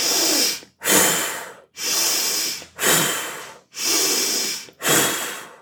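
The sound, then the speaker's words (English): Forceful breathing exercise: intense inhales through the nose alternate with hard exhales through puckered lips. Six loud, hissing breaths come in a steady rhythm, separated by brief pauses, with no talk. “It's going to be an intense inhale through the nose, and then exhale through the mouth intensely as well. And you can pucker the mouth, so it's going to sound like this.”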